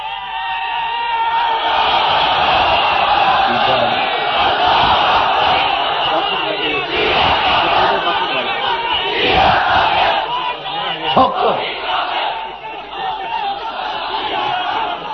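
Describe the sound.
A large crowd at a rally chants and shouts slogans together, with many voices bellowing loudly and continuously. The roar of shouting rises and falls without a break.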